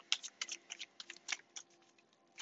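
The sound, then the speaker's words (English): A tarot card is drawn from the deck: a quick run of light, crisp clicks and snaps from the cards, then a louder snap near the end, with no talking. “Next card out, we have the Knight of Wands.”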